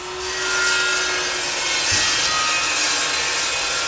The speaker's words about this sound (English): A mason scrapes the extra cement from a newly laid brick wall.